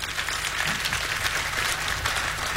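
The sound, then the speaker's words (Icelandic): Steady audience applause at a tribute concert: a continuous wash of many hands clapping at an even, moderate loudness from start to finish. “Já, það má alveg klappa fyrir því.”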